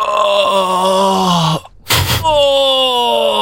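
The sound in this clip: A voice performs drawn-out moans for erotic film dubbing, with one long groan, a short breathy gasp, then another sustained moan, loud and close.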